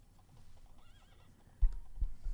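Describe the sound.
A horse gives a faint, wavering whinny, followed by a few heavier hoof-like thuds, all quiet over low background rumble.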